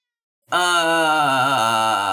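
A cat meows in one long, drawn-out call that starts abruptly and holds steady and loud to the end, wavering slightly in pitch partway through.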